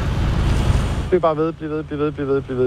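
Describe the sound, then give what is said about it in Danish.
A driver stopped at a roadside check blows into a new breath tester for nitrous oxide (laughing gas): about a second of steady, airy rushing breath, then a voice follows. “Hvis du sådan gør dig klar på at puste i 8 sekunder, hvor det bare sådan flyder ud af dig. Her har han stoppet en bilist, som nu skal testes med det nye værktøj. Og så tager du bare en dyb indånding.”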